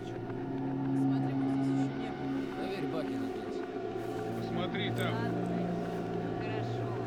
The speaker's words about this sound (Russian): К дому подъезжают две машины.